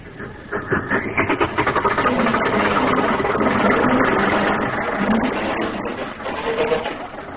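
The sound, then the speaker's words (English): A car engine runs after the emergency brake is released: a steady, loud, rumbling drone with a faintly pulsing texture that continues for the whole clip, with no talking. “Got to release the emergency brake. Here we go.”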